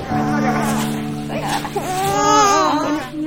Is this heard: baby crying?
yes